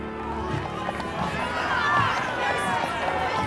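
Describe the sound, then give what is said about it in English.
A mob runs past as a dense, steady patter of many footsteps under a continuous blur of shouting and chattering voices. The sound stays fairly loud throughout and swells slightly toward the middle. “I think we're safe from the mob. Phew, I thought that was going to turn into a riot.”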